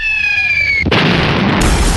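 A bomb explosion sound effect: a whistling tone slides slowly downward, then breaks into a loud, abrupt blast. A dense, rumbling roar follows and grows heavier in the low end toward the close.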